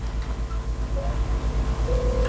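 Telephone line tones after a dropped call: a rapid, regular pulsing buzz throbs steadily throughout, with a faint thin tone sounding above it and no talk.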